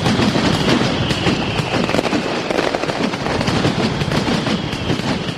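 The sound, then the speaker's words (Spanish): A mascletà barrage of firecrackers by Alto Palancia pyrotechnics booms at the sixth competition during the Hogueras festival in Alicante. Dense, rapid, overlapping bangs and crackles merge into one loud, unbroken roar for the whole stretch, with no voices. “Así sonaba la sexta mascleta concurso que disparaba la pirotecnia Alto Palancia con un terremoto a 3.”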